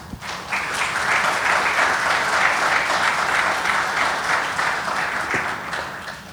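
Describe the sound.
An audience applauds to welcome a panelist to a conversation, dense and even clapping that holds steady for about six seconds before easing slightly at the end.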